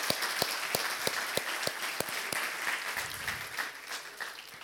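Applause from a church audience in praise of God, fairly faint and steady, with sharp claps landing at a regular rhythm over the wash of hands.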